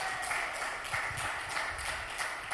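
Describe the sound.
A brief burst of light applause, a quick, faint run of hand claps at a steady pace.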